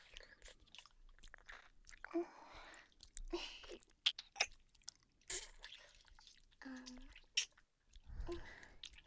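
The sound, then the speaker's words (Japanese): Wet licking and mouth sounds close to an ear come in irregular, faint bursts of soft smacks, slurps and clicks, with breathy pauses between them. “耳も同時に舐めてあげる。”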